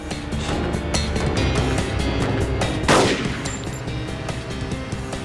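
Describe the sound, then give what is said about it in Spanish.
Gunfire from a suspect rings out as many rapid, sharp shots in an irregular burst, with one louder blast standing out partway through. “El sospechoso desaparece en el área industrial. Disparó 32 balas. Una de ellas hirió a un transeúnte.”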